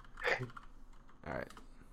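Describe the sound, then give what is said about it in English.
Typing on a computer keyboard: two faint, brief bursts of clicking, one near the start and one in the middle, with quiet gaps around them. “You type in the BMI calendar, or I mean BMI index.”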